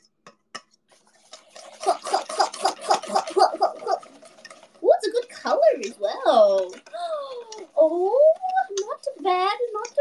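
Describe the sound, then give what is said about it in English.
A mixture being whisked in a bowl: a quick, steady run of rhythmic strokes against the bowl for a couple of seconds, followed by a person talking. “Whisk. Oh, that looks better. Consistency much better!”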